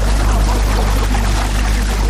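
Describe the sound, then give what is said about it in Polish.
Motorboat speeding across moving water: a loud, continuous rush of engine noise, splashing spray and slapping waves, steady throughout with no pauses. “Jedziemy. To jest bardzo mocna prędkość i fajnie się odbija woda i takie fale.”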